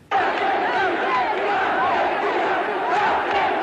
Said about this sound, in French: À Buenos Aires, la nouvelle du débarquement est accueillie par des foules en délire.